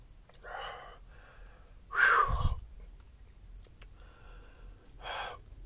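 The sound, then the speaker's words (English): A man gasping for breath after choking: a few breathy, rasping gasps, one much louder and rougher in the middle, the others faint. “Oh, I was choking out and shit.”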